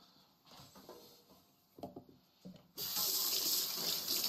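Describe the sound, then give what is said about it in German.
Vegetables being washed under a running tap before peeling: a few light knocks and handling sounds, then the faucet opens into a loud, steady rush of water that continues to the end. “Ja, und ich wasche sie, bevor ich sie schäle. Den Sack tue ich erst mal auf Seite. So. Jetzt werden die kurz mal weg abgewaschen.”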